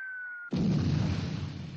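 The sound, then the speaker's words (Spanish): Bombs exploding in a military battle scene: a steady high whistling tone cuts off into one loud, broad, roaring blast that rumbles on and slowly fades. “Corneta, toque alerta bombas. ¿Eso qué es? Cuidado con las bombas.”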